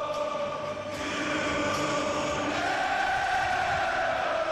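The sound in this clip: A huge football stadium crowd in Dortmund sings an anthem together, a dense, sustained wall of voices that holds at a steady loud level throughout.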